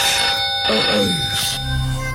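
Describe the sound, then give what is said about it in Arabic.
A telephone rings, a loud continuous electronic ring with steady high tones sounding throughout. “ماهر ماهر التليفون بيرن يا ماهر.”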